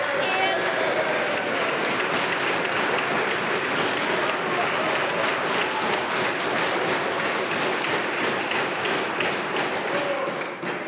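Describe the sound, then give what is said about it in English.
Applause in the House of Commons, mixed with tapping and thumping, runs loud and unbroken throughout, with voices beneath it and a slight drop at the very end. “I believe the other side of the House is not listening to what I am saying, or they would not be applauding this, Mr. Speaker.”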